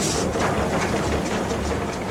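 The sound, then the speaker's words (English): Steady grinding roar of a coal cutting machine working underground in the deepest coal mine in North America, a dense, loud, unbroken drone with a rough rattling texture and no distinct separate events. “Lawrence operates a coal cutting machine.”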